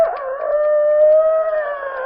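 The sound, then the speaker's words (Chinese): A human voice imitates a rooster crowing; in the story, a chicken thief fakes the call at night by a farm's chicken coop. A single sustained, strained call holds a steady, harmonic pitch for about two seconds and is heard alone. “偷鸡的装起来了公鸡皮。玉宝想，你要偷还不快点偷，为什么你来的这会儿装公鸡呀？”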